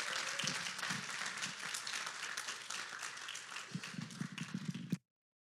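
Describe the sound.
Church audience applause welcoming a speaker up to share his testimony, a steady wash of clapping that thins into scattered, separate claps before cutting off abruptly.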